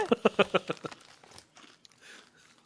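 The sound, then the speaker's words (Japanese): Crunchy deep-fried food is bitten and chewed, starting with a quick, regular run of loud crisp crunches that then give way to softer, sparser chewing noises. “パクパク食べてますね。”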